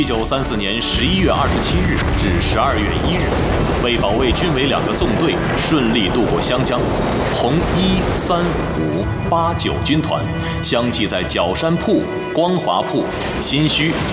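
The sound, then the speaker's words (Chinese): Gunfire and artillery fire from an 1934 river battle between Red Army and Nationalist troops: a dense, continuous roar of blasts and bursts, mixed with many shouting voices throughout. “开火！”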